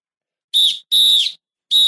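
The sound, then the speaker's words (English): Three shrill, steady-pitched whistle blasts blown in quick succession. The second blast is the longest, and the third is cut off at the end. No other sound is heard between them. “Blow the whistle. Blow the whistle. Blow the whistle.”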